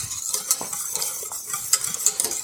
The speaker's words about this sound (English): I don't know if you can hear it, but if I stop stirring it, you could hear maybe that it's starting to bubble.